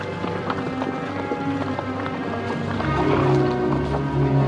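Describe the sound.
Hoofbeats of several horses galloping as a posse rides across open grassland, a rumbling stream of overlapping thuds that swells slightly toward the end.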